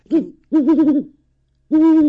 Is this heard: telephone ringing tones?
no